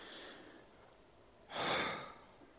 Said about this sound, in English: And let's do a little exercise. Let's breathe.